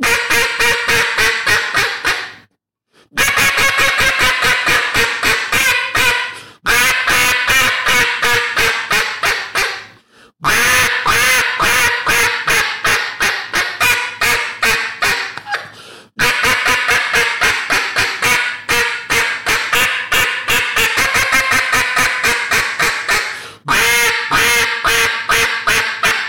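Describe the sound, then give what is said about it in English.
Imitated duck quacks made by a person shaping the air cavity in the mouth: raspy, nasal quacks in fast runs, several bursts separated by short pauses, loud and alone with no talk. “So did that sound ducky?”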